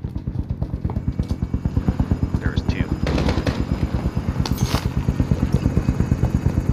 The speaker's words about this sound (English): I'm getting shot at, and I have no ammo.